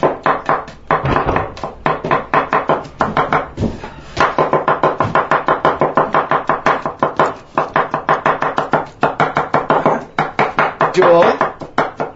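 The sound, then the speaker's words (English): A knife chops an onion on a board, with many quick, evenly spaced strokes in a steady rhythm that runs almost the whole time, briefly pausing and then resuming. “You must cut only the onion.”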